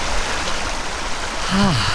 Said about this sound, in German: wir haben sie hier an einem Bach getroffen, wie man hört.